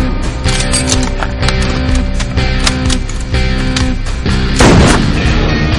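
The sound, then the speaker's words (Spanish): Gunshots ring out in a rooftop shooting scene from a 2013 action thriller, a quick series of sharp cracks over a loud, dense soundtrack, with a heavier burst near the end. “Desde una azotea, Pollo dispara a Mike, que cae al suelo.”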